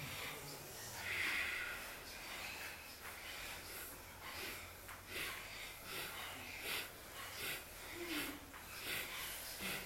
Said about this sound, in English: And it's that same like quick exhale, exhale, exhale. And it's like just like a short inhale on the way back.